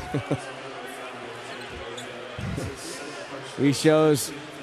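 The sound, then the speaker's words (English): A basketball is dribbled on the court during a professional game. A few sharp, low thumps of the ball stand out against steady arena noise, with voices talking over them. “Quinn Cook, top of the key. Bouncing the dribble, hand off Durant.”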